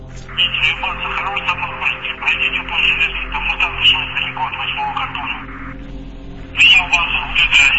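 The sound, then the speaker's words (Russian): A thin, distorted voice heard through an all-frequency radio scanner picking up group transmissions, talking almost continuously with a crackly, narrow tone, pausing briefly before resuming near the end. “Я ее включил и тут же услышал голос, искаженный шипением радиопомех.”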